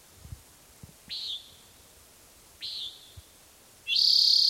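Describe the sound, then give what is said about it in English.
Common nighthawk calling overhead: two short, buzzy, nasal calls about a second and a half apart, followed at the end by a louder, more sustained tone. Faint low thumps sit underneath, and there are no voices. “Nighthawk overhead.”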